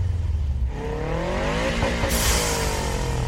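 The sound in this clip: Cars rev and accelerate at the start of a street race. The engine note climbs steadily in pitch as they speed up, with a loud, continuous roar.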